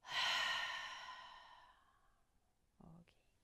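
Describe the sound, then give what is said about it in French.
A long, slow breath out through the mouth during a guided relaxation breathing exercise, loud at first and fading away over about two seconds, followed by a brief soft rustle. “Une dernière fois, inspire par le nez et expire par la bouche.”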